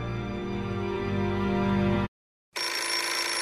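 A telephone rings in a film scene: one sustained, bright ring lasting about two seconds, a short silence, then a second ring begins, loud and steady.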